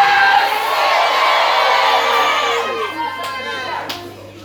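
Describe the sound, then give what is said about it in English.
An audience shouting and cheering at a prophetic church service: a loud, continuous roar of many voices with whoops and yells that eases slightly toward the end, where a few sharp bursts stand out. “Your shout alone is bringing you a miracle. I said your shouting alone.”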